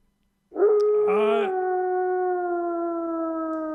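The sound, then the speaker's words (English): A dying husky dog howls in one long, mournful cry. It begins abruptly, briefly jumps higher in pitch, then settles into a sustained tone that sinks slightly and carries on to the end. “That is the sound of the dying husky.”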